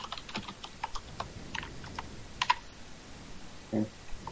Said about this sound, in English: Like, I typed in Verizon phone. There it is right there.